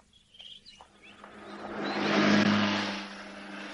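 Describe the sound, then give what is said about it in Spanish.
A motorcycle being started: after a few faint sputters, the engine swells into a loud rev that peaks, then eases back down. “El joven arranca la moto con desesperación.”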